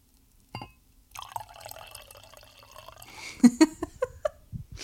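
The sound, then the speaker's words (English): Liquid is poured into a glass in a steady rushing stream, followed by a few short splashes and drips as the pour ends. “That's going to sound like someone pissing. Yeah, I realized that the millisecond that the liquid hit the glass.”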